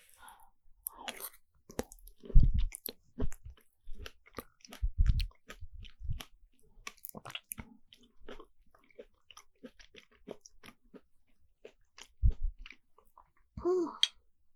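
Chewing on a chilled snack: a few short bursts of munching and biting stand out, with faint clicks of the mouth between them.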